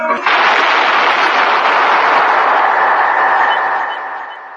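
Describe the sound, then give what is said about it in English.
A single gunshot in a sewer: a sharp onset opens into a loud, long, roaring reverberant wash that holds for several seconds before fading out, with no talk. “That was the shot that killed Harry Lime.”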